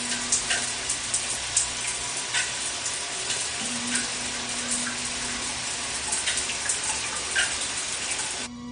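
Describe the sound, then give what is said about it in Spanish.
A shower runs steadily in a bathroom, its water spray making a loud, even hiss that barely changes for several seconds before dropping off at the very end, with no voices. “se mete bajo el agua de la ducha”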